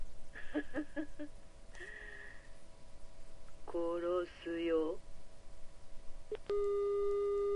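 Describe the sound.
A phone busy tone after a call is cut off in a video game. A steady electronic tone sets in near the end and holds, after a few short beeps and a voice earlier on.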